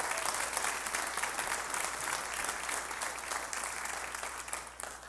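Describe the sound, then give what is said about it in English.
Church audience applauding to welcome online viewers: dense, steady clapping that holds for about five seconds and tapers slightly at the end. “If you're in this room, on this campus, or you're watching us online, live or archived, which we haven't even welcomed the online uh, congregation yet, y'all put your hands together. Let's just welcome them right here.”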